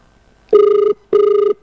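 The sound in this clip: Telephone ringing tone heard on a call, two steady buzzing bursts of equal length separated by a short silent gap, clear and fairly loud with no talk over them.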